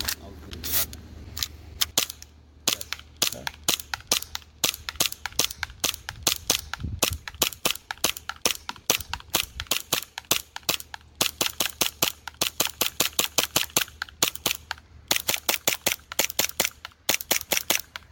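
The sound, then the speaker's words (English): Many rapid gunshots from a gun capable of full-auto fire: sharp cracks in a steady string of quick bursts, separated by brief pauses throughout. “I'm not going to run full auto too much. Yeah. I don't want to mess up the gun.”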